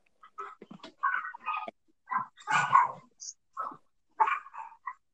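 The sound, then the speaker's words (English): A dog barks in the background, giving a series of many short, sharp barks and yips in irregular bursts, with brief gaps between them and no talk over them. “I can hear a dog. Is that a dog in the background or something?”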